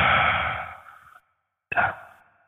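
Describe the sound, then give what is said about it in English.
A deep, breathy exhalation during a guided breathing exercise starts loud and gradually fades to silence. After a short pause, another breath begins, and a further one starts right at the end. “let's take our deep breath. Breathe in. Hold it. Release.”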